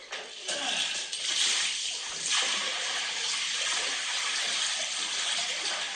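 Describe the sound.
Contaminated milk from a family dairy farm pours steadily down a drain, a continuous loud rushing and splashing stream that holds nearly constant for the full six seconds with no breaks.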